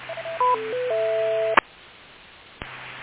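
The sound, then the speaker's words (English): Amateur radio repeater timeout signal: a short series of electronic beeps stepping between pitches into a held tone, cut off by a sharp squelch burst, with a second click later over steady hiss. “Repeater, timeout, cancel. Well, that was the longest timeout that I could recall. I didn't time it personally, but it sounded like a heck of a long time.”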